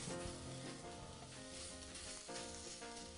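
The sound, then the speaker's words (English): Plums going into a dry sauté pan give a dense, steady sizzling and rattling that runs unbroken throughout with fairly even loudness and no talking. “So I am putting these plums into our saute pan.”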